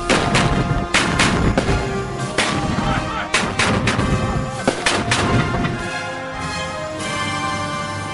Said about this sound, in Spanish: Aquí tiene, soldado. A mi señal, apunten. ¡Fuego!